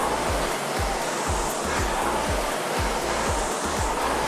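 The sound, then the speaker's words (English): Steady airy whirring of a rowing machine flywheel during strokes, loud and continuous, with a regular faint low pulse repeating beneath the rushing noise. “solid connection from the front of the machine. Get all that power into the flywheel.”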